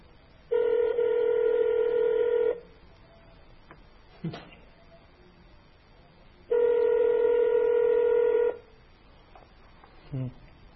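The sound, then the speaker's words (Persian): An outgoing telephone call, placed from a television studio, rings out with two long buzzing ringback tones. Each lasts about two seconds, with a quiet gap of several seconds between them and a few faint clicks in the pauses. “بینندگان عزیزم دعا کنن که انشاءالله وصل بشه تماس.”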